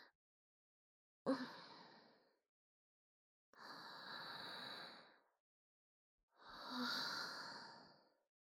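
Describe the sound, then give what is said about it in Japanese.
Deep breathing: three long, slow, airy breaths separated by short silences. Each swells and then tails off, and all are fairly quiet, with no talking. “深呼吸する。”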